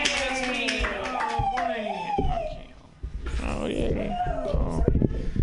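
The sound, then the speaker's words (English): Audience applause for a comedian at a stand-up comedy show: a voice speaks, then dense, steady clapping fills the rest. “Put your hands together for Ian Levy.”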